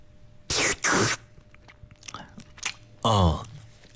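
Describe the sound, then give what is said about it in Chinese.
Chewing and biting on cooked vermicelli noodles made from home-milled grain: two loud, crunchy mouth bursts close together, then quieter scattered mouth noises and a short voiced sound near the end. “好，接下来我再来尝一尝粉条的口感啊。”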